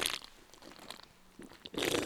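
A 16-ounce drink being cracked open, heard as a soft click and crunch followed by a burst of fizzing hiss. The whole sound is quiet.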